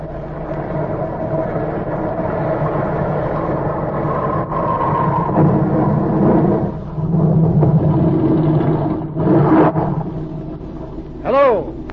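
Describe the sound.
Boat motors running: a continuous low, droning rumble with steady tonal bands that holds throughout, with brief dips and swells in level.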